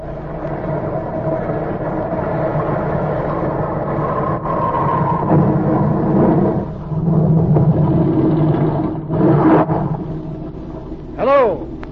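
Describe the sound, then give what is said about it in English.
Motors running steadily as a boat comes alongside another craft on the water, a continuous low engine rumble that swells briefly near the end, with speech at times over it. “I'm coming alongside. Shut off your motors.”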